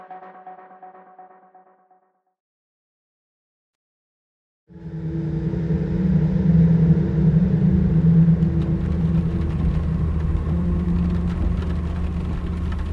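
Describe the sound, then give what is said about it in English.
Steady engine and road drone of a car on the E40 motorway between Brussels and Liège: a low rumble with a whirring hum that holds level once it starts, after a brief faint tone and a few seconds of silence. “I'm driving down the E40 towards Liège from Brussels.”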